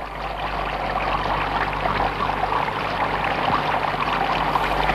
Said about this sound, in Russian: Они сели в лодку, снова зашумела вода.